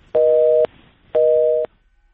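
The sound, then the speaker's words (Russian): Telephone busy tone after a phone line drops: two steady, mid-pitched beeps of about half a second each, evenly spaced, sounding alone before falling silent. “К сожалению, пропала телефонная связь.”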